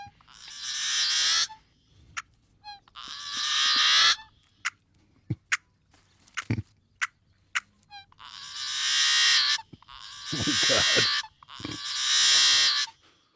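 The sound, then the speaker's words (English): Yellow-headed blackbird calls: several long, harsh, buzzy rasps likened to a rusty gate opening, grating and loud, separated by quieter gaps dotted with sharp clicks and short chips. “And this yellow-headed blackbird has an ugly sound that I'm going to make you listen to. I saw on some birding site that it sounds like a rusty gate opening.”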